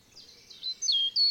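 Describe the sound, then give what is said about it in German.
Birds singing in a forest of old beech and linden trees in a national park: faint, high-pitched chirps and short trilling phrases come in a few bursts, louder toward the end, with no talk. “Es riecht nach Wald, die Vögel singen ihr Lied, über den Köpfen rauschen die Blätter der alten Buchen und Linden.”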